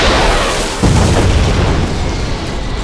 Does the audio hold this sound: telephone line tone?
no